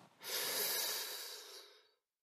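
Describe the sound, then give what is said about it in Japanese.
One long, deep inhalation, airy and hissing, swells quickly and then tapers off gradually over nearly two seconds before silence. “じゃあちょっと深呼吸しよう。吸って、”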